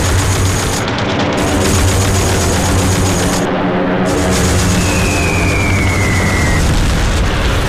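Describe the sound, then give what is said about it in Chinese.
Explosions and gunfire from a Japanese early-morning air raid on an American military base, a dense, continuous wash of loud booms and crackling shots with no pause throughout. “凌晨5点，福特拍下了日军第一次针对美军基地的袭击。”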